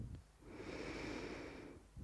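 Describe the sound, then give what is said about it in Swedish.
A slow inhale during a guided breathing exercise: one soft, steady breath drawn in for about a second and a half, quiet and airy, with no talking. “Andas in.”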